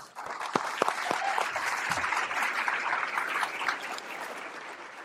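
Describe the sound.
Congregation applause welcoming the outreach pastor at Wooddale Church: a few crisp individual claps open into a full, steady wash of clapping that eases slightly toward the end over five seconds.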